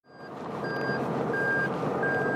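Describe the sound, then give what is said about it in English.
A truck's reversing alarm beeps steadily over a constant low engine rumble as trucks deliver loads of spent tires to a tire recycling plant in New Bedford; four evenly spaced high beeps sound alone without voices. “Arriving from all over the northeastern U.S., a fleet of trucks delivers endless loads of spent rubber to Bob's Tire Company.”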